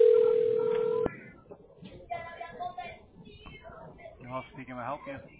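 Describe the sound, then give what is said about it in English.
A telephone dialing out to place a call: a steady, loud line tone holds for about a second and then cuts off abruptly, followed by quieter, irregular voiced sounds. “Give me just a moment. We're dialing.”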